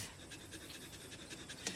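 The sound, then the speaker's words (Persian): A dog pants in fast, rhythmic breaths, soft and steady throughout, with no other sounds. “فقط پارس نکن.”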